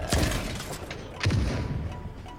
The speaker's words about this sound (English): Concussion? Concussion Blast Phara.